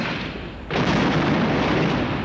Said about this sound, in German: Hier auf Band habe ich schon über 100 Sprengungen von Häusern.